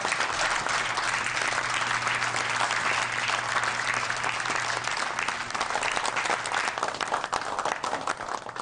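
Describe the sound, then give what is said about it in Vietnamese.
Audience applause after a presentation: dense, continuous clapping at a steady level that loosens slightly toward the end. “Mọi người vỗ tay lớn lên đi nào.”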